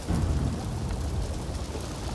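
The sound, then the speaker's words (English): A thunderstorm with rain in a forest, heard as a steady, dense wash of rainfall over a continuous low rumbling that holds an even loudness throughout, with no voices. “As the storm growled and the flames grew”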